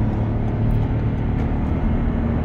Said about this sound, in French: Je vais accélérer, vous allez voir. Et j'accélère juste pour me mettre à la vitesse.